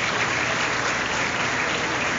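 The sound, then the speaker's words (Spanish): Applause from an audience at a school ceremony: steady, dense clapping that continues without a break from start to finish. “Así que yo quiero un aplauso para Tiago y su familia.”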